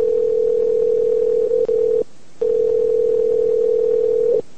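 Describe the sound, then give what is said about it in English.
A telephone dial tone plays as a loud, steady, single-pitched hum. It cuts out briefly after about two seconds, then resumes and stops just before the end. “Come on, dial, damn it. It's not working. Try it again. There it goes.”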